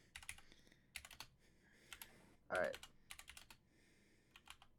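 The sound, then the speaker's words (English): Typing on a computer keyboard: faint, irregular bursts of clicking keystrokes with short pauses between runs, and a brief voice-like sound midway. “I think I'm just going to type in.”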